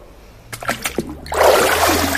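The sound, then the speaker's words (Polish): Water drips and drains from a papermaking sieve holding wet cellulose pulp: a few separate drips, then a fuller, steady trickling splash of water running off. “jest to mokra robota, co zresztą widać, słychać, kropelki lecą. Ta woda musi sobie po prostu odciec, odcedzić się tak jakby na sicie.”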